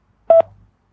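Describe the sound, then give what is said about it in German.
A touch-tone telephone keypad tone for the digit 3: one short, steady, loud beep, followed by a faint low hum that trails off briefly before silence. “Sie müssen nur nach dem Signalton ganz einfach auf Ihrem Tastentelefon die Taste 3 drücken. Ja, nur die 3. Die 3. Bitte drücken Sie jetzt gleich nach dem Signalton die 3.”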